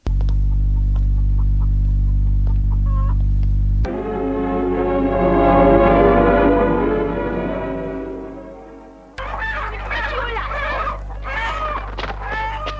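Hens cluck in short, irregular bursts through the last few seconds, set over a steady low hum that runs throughout. Before that comes a long, droning tonal passage that swells and fades.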